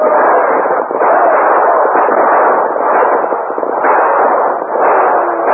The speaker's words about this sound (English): Use your guns, men. Give it to them.